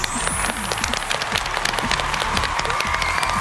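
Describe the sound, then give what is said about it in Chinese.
Loud, dense audience applause welcoming the Guangzhou Xinghu Choir and guests, many overlapping claps forming a continuous, even roar that holds steady throughout. “让我们掌声欢迎广州星湖合唱团，欢迎各位。”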